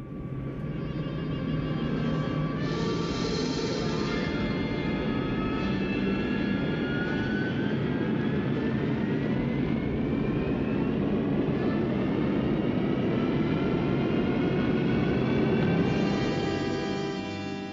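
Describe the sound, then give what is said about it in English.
A ship's engine roars as the ship is put into gear: a loud, continuous, steady drone with a whining tone that climbs gradually through the middle. “I'm putting the ship into gear now. Here we go.”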